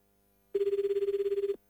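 A telephone rings once, a single burst of about one second made of rapid trilling pulses at a steady pitch, alone against near silence.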